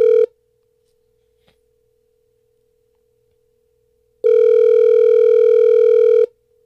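A telephone ringback tone plays while a call is dialed. A clipped end of one tone is followed by near silence, then one steady buzzing ring lasting about two seconds.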